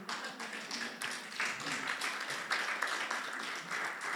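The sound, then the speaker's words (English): An audience bursts into applause during a church sermon, with moderately loud, dense clapping sustained for about four seconds. “that's applause in the middle of a sermon. That's awesome.”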